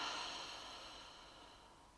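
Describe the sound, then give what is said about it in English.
A slow, faint breath out during a guided breathing exercise, a soft, airy hiss that fades steadily over two seconds. “And one more time, in through your nose and out through your mouth.”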